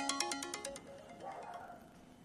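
Phone ringtone from an unknown caller: a quick run of bright, repeating electronic tones, quite quiet, trailing into a softer, fading melodic phrase.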